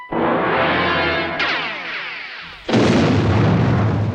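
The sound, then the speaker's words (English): A ship blowing up after an order to open fire, heard as three heavy explosive blasts in succession, each with a loud onset and a long, rumbling, crackling tail. “I do like that the recap just ends with the ship blowing up.”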